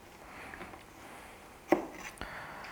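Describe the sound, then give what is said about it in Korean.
A knife chopping garlic on a board: a few sharp, faint strikes, the clearest one followed shortly by a softer second cut, over quiet background hiss. “마늘은 좀 미리 썰어 놓으면 이 맛있는 향이 좀 잘 나오거든요.”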